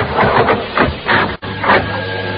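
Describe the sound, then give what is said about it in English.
An elevator starts to ascend with a loud, steady mechanical whir. It swells and fades in a regular rhythm, with a brief dip midway and a thin steady hum underneath. “I was in the elevator. When it started to ascend”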